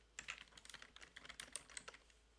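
Rapid typing on a computer keyboard: many quick, light key clicks in an uneven run, faint and with no voices.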